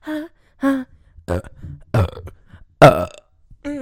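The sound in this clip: A series of deep, voiced burps, each short and resonant, separated by brief pauses, with loudness varying from one belch to the next.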